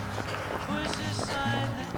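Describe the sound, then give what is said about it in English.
Running footsteps on a two-lane main street early on a Sunday morning, a steady quick patter that carries on under continuous talk for the whole stretch. “I just ran past the Covered Bridge breakfast restaurant. I'm now passing Bambino's Pizzeria”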